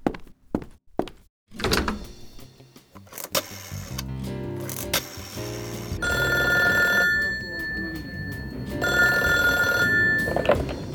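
A telephone rings while someone calls the Metropolitan Police detective division. A few dull thuds and handling knocks come first, then two separate bursts of bright electronic ringing.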